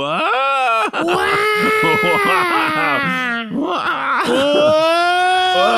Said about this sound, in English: That's a baby crying there. Geez, they're really working themselves up